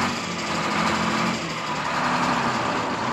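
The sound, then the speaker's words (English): An aircraft engine started up before takeoff, running as a steady, dense buzzing drone with a rough, rattling edge that holds an even level throughout. “Come on, Joe. Start your motor. We're late for takeoff.”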